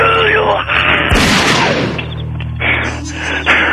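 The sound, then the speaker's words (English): A single loud gunshot cracks out in the middle of excited talking, a gun accidentally fired into the shooter's own foot, with voices continuing right after the blast. “What was that other shot I heard? I shot my foot.”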